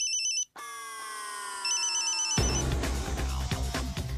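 An electronic phone ringtone signals an incoming call with a sustained synthetic tone and a warbling trill, before loud, dense noise takes over.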